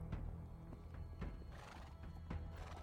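Horses neigh and whinny while hooves clip-clop steadily, riders on horseback in a Dragonlance fantasy battle at Steel Springs, soft and continuous with no talking.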